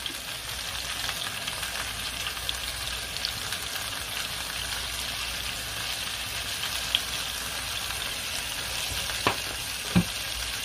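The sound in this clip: Vegetables with garlic and scallion seasoning sizzle steadily in a hot pan as they are stirred. It is a continuous bright frying hiss, with a few soft scrapes and clicks standing out near the end.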